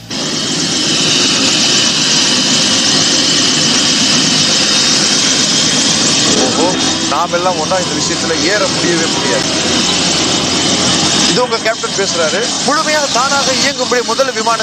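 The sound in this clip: An airplane in flight gives a loud, continuous jet engine roar that holds steady throughout, with people talking over it during the second half.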